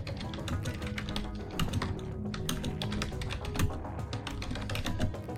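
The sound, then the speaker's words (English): Rapid typing on a computer keyboard during a timed 15-second message, a dense, continuous run of many light clicks and key taps that holds steady for about five seconds with no talk. “I'm going to give you exactly 15 seconds to type yourself a message. On your mark, get set, go.”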